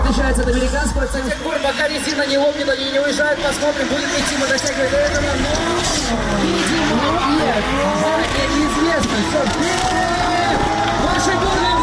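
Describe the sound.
Drift cars roar and their tires squeal and skid as enthusiasts show off drifting at a bikers' holiday celebration. Loud, continuous engine noise with swooping rises and falls in pitch runs throughout, with voices babbling underneath.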